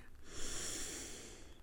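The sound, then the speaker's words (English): A faint, slow breath drawn in through the nose during a guided breathing exercise, a soft airy hiss heard alone. “And we're going to breathe in through our nose and hold for a few seconds. Let's breathe in. and out.”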